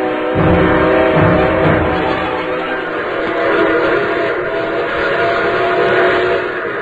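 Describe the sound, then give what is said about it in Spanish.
Northbound train travelling with a whistle sounding: a loud, steady rumble and clatter with sustained whistle tones held over it throughout. “Porfirio Cadena se dirigía a Monterrey en el tren del norte que llegaría a la Sultana a las primeras horas de la mañana siguiente”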